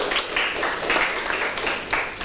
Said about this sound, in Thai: ถูกต้องนะครับปรบมือให้เพื่อนหน่อยครับ